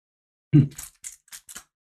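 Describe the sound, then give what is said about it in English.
A bottle being opened as its plastic wrapping is peeled back: one low thump, then four short, crisp crackling snaps with brief gaps between them. “I'm going to actually crack open this bottle,”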